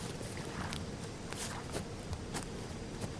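Footsteps of a man walking away on a morning stroll: a few soft, evenly spaced steps over a steady background noise.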